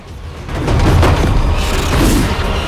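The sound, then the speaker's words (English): Flak and rockets explode at night in a dense, rumbling roar. The noise swells after a quieter start and then holds as a continuous low boom, with no single blasts standing out. “As flak and rockets explode in the night, Riddick leaps a gap between buildings.”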